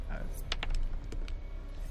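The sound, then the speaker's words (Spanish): A twenty-sided die is rolled during a tabletop role-playing game, making a few quick, faint clicks and clatters against a low background rumble. “Tú tira el dado de 20, yo voy a tirar el dado de 20 por el emisario de la liga.”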